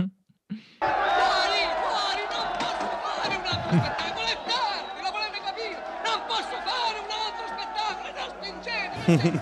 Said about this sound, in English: let's play a little clip of the audience getting hyped up during the movie.